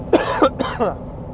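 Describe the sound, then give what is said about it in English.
A person coughs a few times in quick, short, rough bursts, moderately loud, with no other sound. “I have to cough.”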